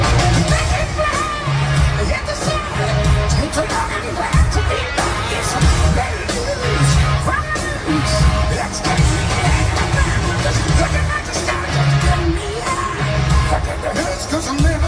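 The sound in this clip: Loud live rock music captured by an audience member at a concert, a band on stage playing a cover with a guest singer, with a steady pounding beat and a thick, muffled wall of guitars and crowd noise.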